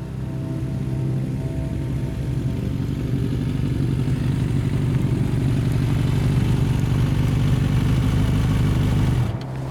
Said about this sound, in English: I ease off the throttle and let the bike coast down the slope